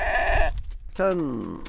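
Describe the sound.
Goats bleating from a family herd of about thirty at the edge of large desert dunes. There are two calls: a short, steady, nasal one, then a longer bleat after a brief pause whose pitch falls toward its end.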